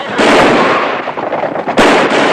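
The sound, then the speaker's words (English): Pistol gunfire as a gang shoots at townsfolk and rides off in a hail of indiscriminate bullets. Loud, crackling shots blur into a continuous roar, with a sharp fresh blast near the end. “The gang shoots off their pistols at the townsfolk and ride off in a hail of indiscriminate bullets.”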